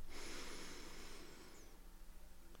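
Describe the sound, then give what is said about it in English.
A long, deep breath is drawn in during a guided relaxation visualization. It is a soft, airy hiss, faint and alone, that slowly fades away over about two seconds. “Now take one last long deep breath in,”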